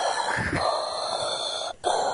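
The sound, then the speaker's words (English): Heavy breathing pushed straight into a microphone, a loud, steady rasping rush of air that carries on almost without pause, with one brief break near the end before the breath resumes. “you're breathing right into the microphone. Like, sounds like”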